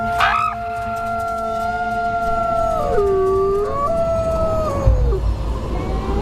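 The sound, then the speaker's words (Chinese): Wolves howling a summoning call to gather the pack in bitter cold by a lake shore: several long, overlapping tonal howls that glide and drop in pitch, steady and fairly loud over a low rumbling background. “这种特殊的叫声有召唤作用，一群狼应声而来。”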